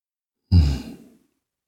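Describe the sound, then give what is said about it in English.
A single deep breath drawn in, a brief breathy rush with a sudden start that fades over about half a second, heard alone. “Breath in. Pure breath in.”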